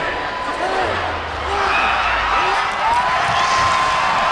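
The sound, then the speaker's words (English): New Year's Eve revellers fill Adelaide's main street with a dense, continuous buzz of many overlapping voices and chatter, staying at a steady level throughout. “In the city of churches, there were similar scenes. Adelaide's Main Street abuzz.”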